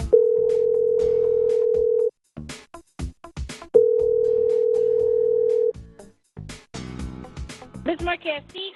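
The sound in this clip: Telephone ringback tone plays while a call is placed: two long, steady tones of about two seconds each, separated by a pause. People talk between and after the tones.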